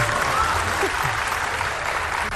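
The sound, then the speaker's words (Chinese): Audience applause from a crowd at a live comic dialogue performance, a steady, even patter of clapping that stays fairly subdued and continuous throughout, with no voices standing out. “谢谢朋友们稀稀拉拉的掌声”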